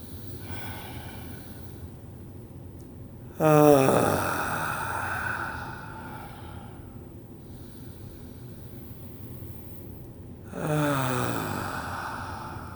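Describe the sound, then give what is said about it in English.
Deep, soothing breaths come as two long airy exhalations with a slightly voiced, sighing edge. Each swells quickly, then fades slowly over several seconds, with long quiet gaps between them. “let's start with three deep, soothing breaths. Let your shoulders drop with each one.”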